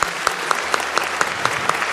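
Applause from a crowd honouring a man's 70th birthday: steady clapping with regular sharp accents roughly every quarter second, fairly loud and without speech.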